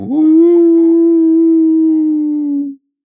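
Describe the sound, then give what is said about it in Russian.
A person imitates a dog howling, like a wild dog at night, after spotting a dog in the distance. The single long, steady, tonal howl holds one pitch for nearly three seconds, then cuts off abruptly. “Крисан, заметив вдалеке собаку, лаял «Аф! Аф! Аф!» или скулил, как побитый щенок, или завывал, как дикий пес в ночи.”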